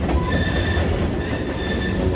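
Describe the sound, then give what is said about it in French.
A train passing on the railway track behind a café in a town centre, heard as a steady, loud rolling rumble with thin metallic wheel squeals running through it and no voices. “La voie ferrée traverse le centre-ville de War. Elle passe juste derrière le café. Le train n'a pas d'horaire régulier.”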